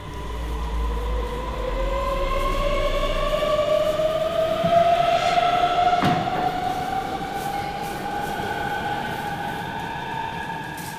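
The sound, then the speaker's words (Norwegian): A train rumbles along the rails with a steady, loud roar and a tonal motor whine that climbs gradually in pitch, a brief sharp clank cutting in partway through; no voices. “Eller måske sidder du netop nu i toget på vej til Helsingør.”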